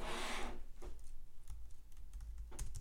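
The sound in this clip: Typing on a computer keyboard as a search is entered: quick, uneven key clicks in a few short bursts over about three seconds, with no talk.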